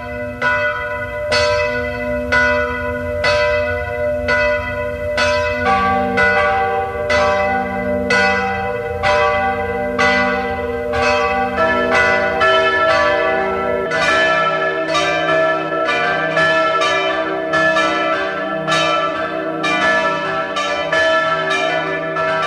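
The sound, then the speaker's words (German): Church bells of a pilgrimage church at Ebenthal near Klagenfurt ring at noon, sounding alone in a loud, continuous peal of many strikes. Further bells join partway through, thickening the overlapping, resonant tones. “Es ist 12 Uhr. Sie hören die Glocken der Wallfahrtskirche Maria Hilf zu Ebenthal bei Klagenfurt.”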